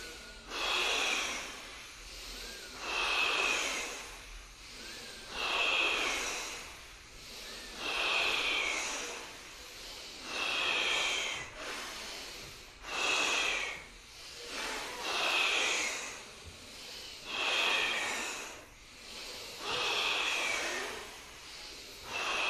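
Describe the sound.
Forceful, hissing breaths during a kriya yoga breathing exercise repeat in a steady rhythm roughly every two seconds, many in a row, each a loud rushing swell, with no voice over them.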